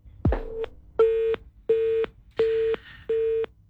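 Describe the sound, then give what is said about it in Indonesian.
Busy tone after a phone call is cut off: five even, steady beeps of a mid-pitched tone with short silences between them, heard alone at a moderate level. “teleponnya terputus dari Ustaz Lutfi”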